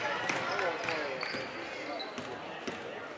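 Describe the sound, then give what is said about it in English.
A basketball is dribbled on a court during a women's basketball game, giving several sharp, irregular bounces under steady crowd noise and talk. “Hill dribbling left past Tomlin.”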